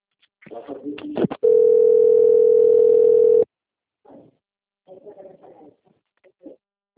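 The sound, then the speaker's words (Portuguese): A telephone ringing tone sounds as an outgoing call connects, one steady, unbroken mid-pitched tone lasting about two seconds. Muffled voices and handling noise come just before it, and faint talk follows. “Tom ligando.”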